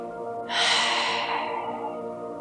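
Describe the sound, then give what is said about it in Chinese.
A slow, long exhale during a breathing exercise begins abruptly as a breathy rush of air and tapers off gradually over about two seconds, over soft steady background tones. “慢慢的把你这一口气悠悠的、长长的吐出来。”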